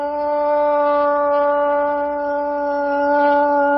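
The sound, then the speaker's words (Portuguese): A police car siren marks the start of a police-news segment: a loud, sustained tone holding a steady pitch with a rich, buzzy stack of overtones for about four seconds, with no voices. “Sua viatura virtual Bagabim vem chegando e com ela... muitas informações do setor policial.”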